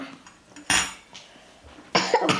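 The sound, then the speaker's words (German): Crinkly rustling of toilet paper being wrapped around a pair of cutlery, with a few short handling bursts separated by quieter stretches. “Mit dem WC-Papier tut er ein Besteckpaar umwickeln.”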